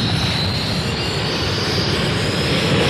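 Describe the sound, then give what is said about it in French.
Dense, steady roar from the exhaust nozzles of a Dassault Super Mystère 4B1 jet aircraft, a broad rushing engine noise that holds constant without a break, with a faint high whine running above it. “Vous entendez les tuyères du Super Mister 4B1.”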